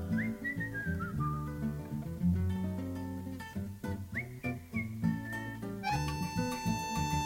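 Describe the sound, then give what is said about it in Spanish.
A whistled melody imitating a little bird rises above an instrumental song accompaniment. It moves in short, bright phrases, with the first phrase stepping downward in pitch, and it stays steady and prominent throughout. “Un pajarito pregunto de contento. Yo silbo y contesto.”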